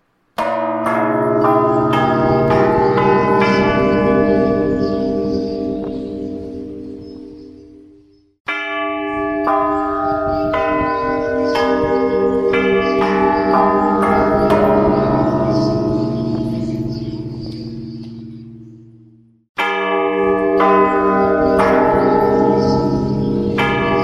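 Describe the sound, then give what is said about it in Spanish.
Sampled church bell peals recorded for building the tolls of a composition. Three large strikes sound, each a rich, layered chord of ringing tones that hums and slowly decays over several seconds before the next one hits. “El trabajo de sampleo de las campanas permitió crear los toques y escucharlos aún antes de ser ejecutados.”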